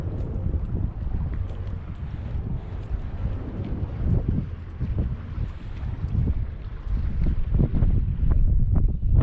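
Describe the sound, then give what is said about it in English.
Strong wind outdoors by the water, a continuous low, rough roar with gusty surges buffeting the microphone throughout, no voices. “It's pretty windy out here. It's cold.”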